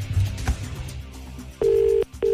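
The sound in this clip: Ringback tones from an outgoing telephone call come in as two steady pulses of equal pitch. A dense mix of other sound leads in before them, and the second pulse is cut off at the end.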